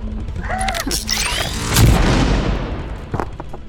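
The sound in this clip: Video game rifle charging up with whirring, rising electronic tones and crackling sparks, then firing in one heavy booming shot that decays into a rumbling tail with a few crackling bursts after.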